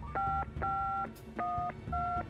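Telephone keypad dialing: a series of steady two-tone beeps, each lasting under half a second and separated by short gaps, over faint low background noise.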